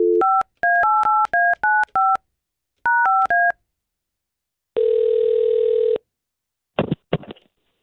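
Touch-tone beeps as a phone number is dialed for a call, two quick bursts of paired tones separated by a short pause, followed by a longer steady tone and a few faint clicks at the end.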